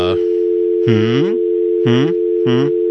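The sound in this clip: A steady telephone dial tone hums continuously while a call is being placed. A person speaks over it in a few short bursts.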